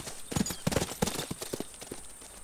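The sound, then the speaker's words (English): Hooves of a ridden horse clip-clopping along a road in a quick, uneven series of sharp knocks, with many hoofbeats clustered in pairs before thinning out toward the end. “I get it back on Leander, and I ride ahead.”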